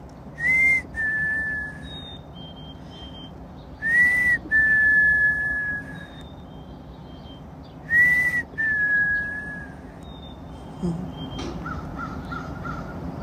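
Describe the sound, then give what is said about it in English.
Chickadees singing their whistled song: three clear two-note whistles, each short first note slightly higher than the longer second, spaced by pauses. Fainter high whistles fall in between, over a low, steady rumble. “Hearing the chickadees sing their love song.”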